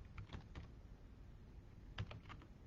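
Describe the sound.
Soft typing on a computer keyboard, a few scattered faint key clicks with quiet gaps between them.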